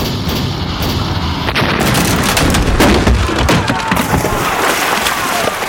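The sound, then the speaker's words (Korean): Cannon fire aimed at enemy ships: loud, dense volleys of overlapping booms and sharp cracks that roll on continuously with no real pause. “적선을 향해서 총통을 발포하라! 멈추지 말고 계속 쏴라!”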